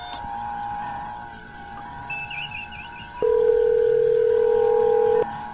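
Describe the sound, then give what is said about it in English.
A steady telephone tone plays while a cell phone is being called. After a quieter stretch of line hum, a single loud, even tone holds for about two seconds and then stops. “I'm going to try Norman's cell phone.”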